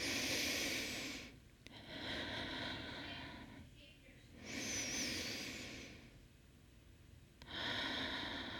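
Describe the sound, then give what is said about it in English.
Slow, deep breaths during a guided breathing exercise, heard as four long, soft, airy swells of inhaling and exhaling with quiet gaps between them. “So let's take two more deep breaths.”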